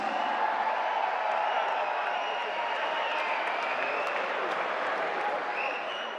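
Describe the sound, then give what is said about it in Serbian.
Audience applause at a kafana-style music evening as a singer is welcomed on stage: dense, loud, continuous clapping that holds steady throughout and eases off slightly at the very end. “zato ću zamoliti vas da je pozdravimo najvećim aplauzom”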